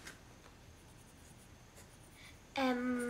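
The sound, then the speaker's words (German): Pen scratching on paper as a list is written down. Soft, faint strokes run steadily, then a loud tonal sound cuts in near the end. “Schreib's auf.”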